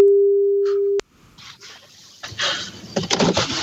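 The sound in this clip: A single steady telephone ringing tone, about one second long, sounds while a call is being dialled. Irregular rustling and clattering noise follows and grows louder toward the end.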